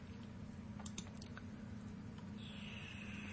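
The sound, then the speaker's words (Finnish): Faint keystrokes on a computer keyboard while code is typed: a short cluster of soft clicks near the start, then only a quiet steady hum with a thin high tone. “kun mä kirjoitan tähän int, niin tämä muuttukin sitten hienosti melkein syntaksi toimivaksi.”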